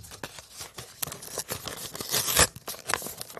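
An envelope being torn open: crinkly paper rustling and short tearing sounds build to one louder, sharper rip partway through, then fade into lighter crackling, with no talking.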